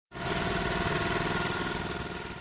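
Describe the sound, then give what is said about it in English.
A new generator running in a barn, its engine starting abruptly and then holding a steady, loud droning hum with a faint rhythmic throb, alone with no voices. “He found Jack out in the barn, checking on his new generator.”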